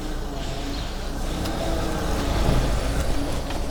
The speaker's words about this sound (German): hier fährt gerade jemand aus der Ausfahrt raus